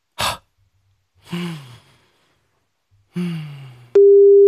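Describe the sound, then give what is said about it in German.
A phone call tone starts after the call button is pressed: a loud, steady, unbroken tone that runs to the end. It is preceded by a short click and two sighing breaths, each falling in pitch. “Und drücke jetzt auf Anrufen.”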